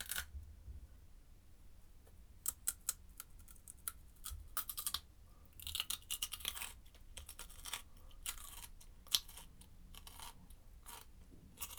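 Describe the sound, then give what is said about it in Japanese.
Crunchy bites and chewing of raw cucumber: many sharp, crisp crunches in irregular clusters, some louder than others, with quiet gaps between them. “きゅうりはどうしようかな。きゅうりおいしいよね。今食べちゃおう。”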